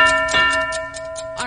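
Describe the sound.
Ticking clock timer for a quiz round: about seven crisp, evenly spaced ticks, roughly five per second, over a steady sustained tonal hum.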